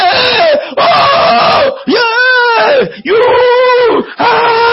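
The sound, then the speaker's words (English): A preacher imitates wailing with a run of loud, drawn-out vocal cries, each bending up and back down in pitch and split by brief gaps. “You know, cry is different from wailing. Cry is... But wailing...”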